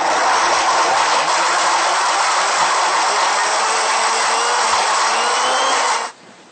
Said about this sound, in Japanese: ミキサーにかけます。